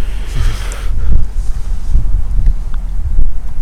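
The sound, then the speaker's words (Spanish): Strong wind blows in loud, buffeting gusts, with deep rumbling that swells and eases several times. The wind is heard alone, with no voices. “Viento, viento, viento.”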